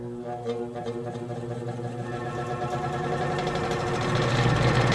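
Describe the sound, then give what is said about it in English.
An old-fashioned electric fan with spinning blades is switched on. Its motor makes a steady, harmonic hum that grows gradually louder over the few seconds. “Hey, I think it's a fan. Yeah, one of those old-fashioned fans with the spinning blades. Only these look more like they're wilting. Maybe if I just plug it in.”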